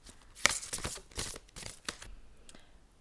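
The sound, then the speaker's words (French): A card is drawn from a deck, giving soft papery rustling and flicking with a few sharper snaps, all fairly faint and without voices. “Donc je vais tirer une carte et on va voir euh, un petit peu euh, ce que ça euh, peut nous donner comme idée par rapport au sujet de l'unicité.”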